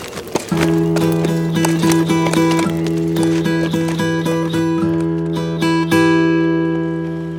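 Hoofbeats of a horse being ridden away by its rider, a steady clip-clop of many regular hoof strikes carrying over sustained droning musical tones that run through the whole passage.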